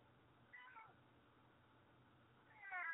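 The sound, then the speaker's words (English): Kittens meowing: two thin, faint meows, a short one early on and a louder, longer one at the end, over a low steady hum. “Oh, baby cats. I love the cats.”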